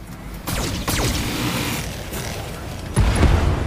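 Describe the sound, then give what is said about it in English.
Medium lasers fire in a video game with a few sweeping, zapping tones that fall in pitch over a steady mechanical rumble, the last shot arriving with a heavier thump. “I'm gonna save the autocannon. We'll just fire two medium lasers.”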